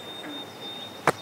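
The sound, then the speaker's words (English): White-throated sparrow whistling its song, a thin, faint, high whistle held at one steady pitch, with a brief louder burst near the end. “There's a white-throated sparrow that I keep hearing up on the bank. It's one of my favorite birds to listen to. It just has like this very calming, soothing whistle.”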